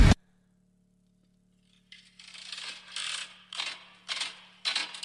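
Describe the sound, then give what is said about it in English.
A slot machine sound effect: a brief click, a pause of silence, then several bursts of metallic rattling and clinking over a steady low hum. “Slot machine. Yeah, it's like Devin said here.”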